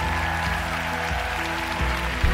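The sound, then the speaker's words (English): A church audience clapping along during a morning worship service, the clapping sitting under loud, sustained keyboard-like music that carries the whole moment. “If you believe that, give Jesus a big hand this morning. Come on, clap your hands, all the people, shout it over the voice of triumph.”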